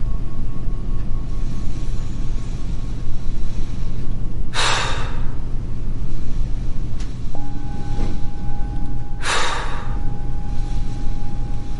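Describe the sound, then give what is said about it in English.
Two deep breaths, each a brief rush of air, come several seconds apart over a steady low hum. “Now take a deep breath.”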